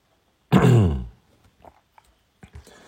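A single harsh throat clearing lasts about half a second, loud and alone, during a guided zazen meditation session. A few faint small sounds follow in near silence.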